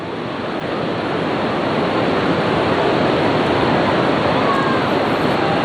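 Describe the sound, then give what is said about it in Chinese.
The Qiantang River tidal bore rolls toward the dam at Laoyancang as a dense, loud roar of churning water and surf that holds at an even, heavy level throughout. “眼前的这一条银链啊，它把钱塘江一分为二，我们看到潮水逐渐接近我们老盐仓的大坝了。”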